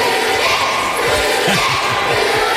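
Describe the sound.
Schoolchildren packed into a gym chant loudly to welcome home a 6'3" NFL punter for the Bengals who is their former student. The shouting is dense and unbroken, with a rhythmic chanted pulse running through the crowd noise.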